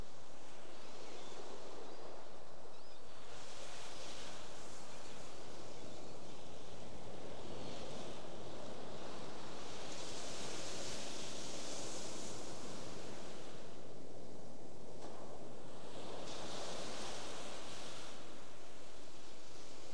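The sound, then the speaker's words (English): Ocean waves wash in a soft, continuous roar that swells and eases in slow surges. There are no other sounds. “just receive the sound of the wave, the pause between. Sound coming and going.”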